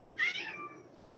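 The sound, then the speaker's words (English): A domestic cat gives a single meow, a short high-pitched cry lasting well under a second, fairly faint and alone against a quiet background. “that was my cat.”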